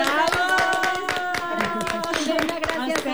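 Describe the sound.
Audience applause for a guest, with many sharp, quick hand claps running throughout over a sustained tonal sound beneath.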